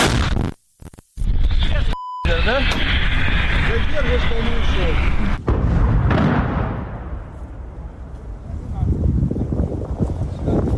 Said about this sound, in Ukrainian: Заряжен. Постріл!